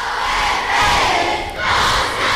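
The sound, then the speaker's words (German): Loud cheering and whooping from a crowd of school pupils welcoming athletes, including professional footballers, in a Gymnasium assembly hall, swelling in waves with a brief dip. “Ja, in der Aula wurden die Sportler dann lautstark begrüßt”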